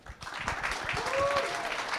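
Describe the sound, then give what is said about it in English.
Audience applause following a team's presentation at a pitch event: dense, steady clapping that swells quickly after a brief quiet start and holds at an even level for about two seconds. “Give them another round of applause. Wonderful job.”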